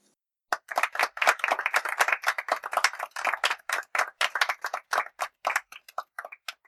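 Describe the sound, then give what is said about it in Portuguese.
Applause of many claps in quick, dense succession, bright and sharp, continuing steadily for about six seconds before thinning out near the end, with no voices over it. “E as palmas vão para...”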